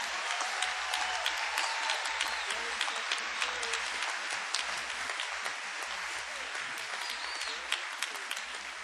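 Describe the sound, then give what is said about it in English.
Dense, sustained audience applause welcomes a performer onto the stage, a steady wash of many hands clapping at even loudness for the whole stretch, with no voices standing out. “Please welcome, first of all, a warm hand, if you will, for Miss Valerie Carter.”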